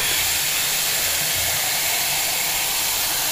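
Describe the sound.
A dispenser fills a ceramic cup with a loud, continuous rushing hiss, steady from start to finish, with a faint low rumble beneath.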